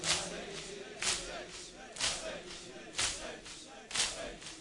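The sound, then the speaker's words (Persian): Rhythmic chest beating in a Muharram mourning ritual: a steady series of dull slaps, roughly one each second, fairly faint over a constant murmur of background noise. “فقط سینه بزن بگو حسین اینجوری باید سینه بزن تا آخر.”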